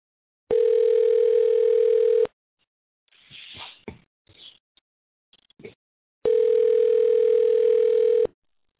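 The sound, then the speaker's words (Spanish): Telephone ringing tone heard while a call is placed: two long, steady electronic tones, each about two seconds, separated by a pause holding faint scattered noises. “Nuestro amigo Steve Forbes, vamos a llamarlo en este momento, a ver si nos contesta.”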